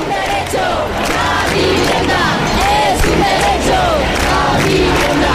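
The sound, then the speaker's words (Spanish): Street protest crowd in Granada demanding housing, many voices shouting, chanting and cheering together in a dense, continuous roar that stays loud throughout. “Granada se ha echado este fin de semana a la calle por la vivienda.”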